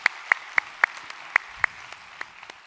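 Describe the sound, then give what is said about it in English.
Sparse, scattered hand claps from an audience welcoming others to a study session: about a dozen sharp, separate claps at uneven intervals, growing fainter toward the end, with no voices. “So if you would put your hands together, welcome them to our time of study here today.”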